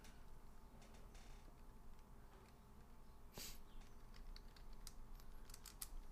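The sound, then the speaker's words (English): Typing on a computer keyboard: faint, scattered clicks of keys tapping at an uneven pace over a soft, steady background hiss, with no talking. “Type, type, type.”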